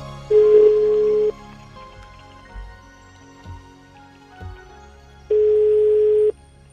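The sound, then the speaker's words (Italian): The ringback tone of an outgoing telephone call: two long, steady, loud beeps, each about a second, separated by a long quiet gap. “adesso la telefonata è importante. Lo annuncio qui, chiamiamo casa Cocilobo.”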